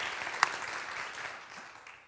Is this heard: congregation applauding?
yes